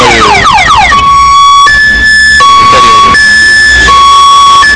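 A car alarm blares from a vehicle with people inside. It opens with rapid warbling sweeps, then switches to loud, steady, high-pitched tones that alternate and repeat without a break.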